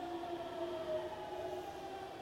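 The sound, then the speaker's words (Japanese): A reserved-seat limited express train bound for Namba is running. It gives a faint, steady rumble with thin tonal whines held at a constant pitch throughout, and no talk is heard. “This is the Rapido Alpha Limited Express bound for Namba. The next stop is Izumi Sano.”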